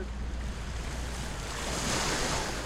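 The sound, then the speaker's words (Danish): Sea waves wash onto the shore in a steady, continuous rush of surf that swells slightly in the second half, with no voices heard. “nu kommer vandet og tager den”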